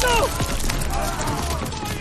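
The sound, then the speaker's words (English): M1 Garand rifle gunfire in a World War II video game. Dense, continuous shooting and battle noise with voices mixed through it. “just love that that ping of an M1 Garand”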